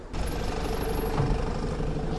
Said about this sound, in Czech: Autobus městské hromadné dopravy v modrožlutých barvách, tedy v barvách města Benešov, právě přijíždí na zastávku.